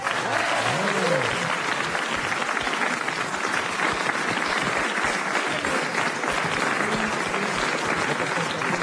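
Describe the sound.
Audience applause welcomes two guests, Eric et Ramzy. Dense, even clapping is sustained for about nine seconds, with a brief voice heard near the start.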